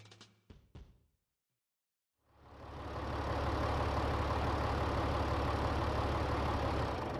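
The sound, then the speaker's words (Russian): A tractor engine drives briskly along a road, rising out of near silence into a loud, steady, rumbling drone that holds evenly to the end, with a low throbbing underneath. “трактор весьма резво катил по дороге”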